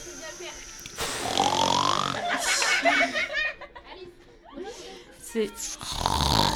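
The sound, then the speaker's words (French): A person imitates snoring, voicing a few loud, rasping, throaty snores with uneven pauses between them, imitating a relative sleeping in a tent. “C'était un ronflement très très juste qu'on a eu ici.”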